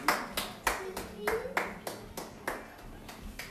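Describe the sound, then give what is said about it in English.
Children clapping their hands during a game of Simon Says: many sharp, separate claps in a steady, even rhythm, each one crisp and quickly fading. “Simon says, clap your hands.”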